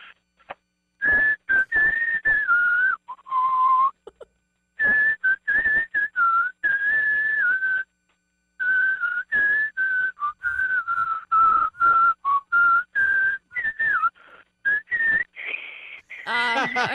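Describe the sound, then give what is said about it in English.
A person whistles a song: many short, clear notes in phrases with brief gaps between them, mostly at a steady mid-high pitch, closing with a higher run of notes. “I'm whistling on the radio.”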